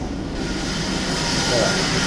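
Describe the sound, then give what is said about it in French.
In a chocolatier's workshop, a water jet cutting machine slices through chocolate with a loud, steady, unbroken hissing roar. “Donc là, en fait, on a la découpe, ce qu'on appelle la découpe jet d'eau. Donc euh, on a ces machines-là nous permettent de découper euh, tout, tout, euh, toute forme de choses.”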